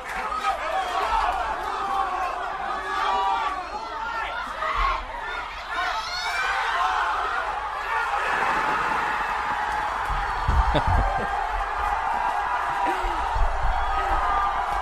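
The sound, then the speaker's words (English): A packed restaurant and bar crowd in Lincoln, Nebraska reacts to Landon Donovan's World Cup goal. Loud, sustained crowd noise of shouting and whoops blends into a continuous roar. “The next clip I want to play is a packed restaurant and bar in Lincoln, Nebraska, of all places, that you might not think is a soccer bastion. This is them watching that moment, and this is the sound of America responding to the Donovan goal.”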